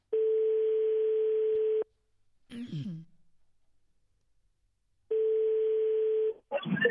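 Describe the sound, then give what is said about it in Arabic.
Ringback tone on a radio phone-in line: two long, steady buzzing rings separated by a pause, with a brief breathy sound between them and a voice cutting in at the very end. “الهاتف يرن”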